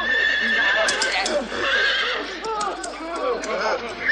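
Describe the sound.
A horse rears and neighs with loud, shrill whinnies that carry through the whole clip, mixed with some clopping of hooves.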